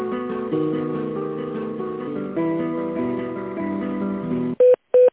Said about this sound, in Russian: Сейчас я переведу на Светлану Александровну.